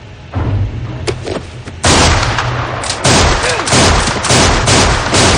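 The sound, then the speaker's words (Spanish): Gunfire in a 2007 western film as a man opens fire on a whole gang: many loud, sharp shots in overlapping bursts, with the volume jumping higher as the volley continues. “De pronto este abre fuego contra toda la banda.”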